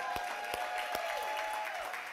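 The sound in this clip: Church audience applauding, a faint scattered clapping with a few sharper claps over a soft steady hum.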